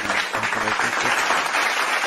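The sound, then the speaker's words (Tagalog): An audience applauds after a Bible reading, a brief burst of dense, steady clapping from many hands that holds at an even level throughout. “palakpakan natin natin”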